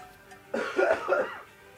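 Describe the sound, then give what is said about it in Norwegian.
Nose blowing: a single noisy, snorting burst of under a second that swells in the middle, heard alone with no talk around it. “Beklager, beklager, beklager. Jeg måtte bare snyte meg litt”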